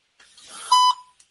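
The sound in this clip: A voicemail beep: a single short, steady electronic tone, clear and alone.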